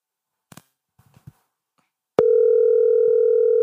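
A telephone call tone on a call that nobody answers: after a few faint, brief sounds, a loud steady electronic tone starts abruptly and holds unbroken at one pitch to the end.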